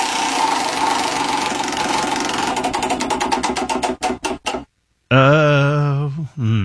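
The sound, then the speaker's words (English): A prize wheel spun to pick what someone will eat ticks rapidly, then slows into distinct, widening clicks before stopping. After a brief silence, a loud, wavering tonal sound follows. “It is time to spin the wheel and see what you're going to eat.”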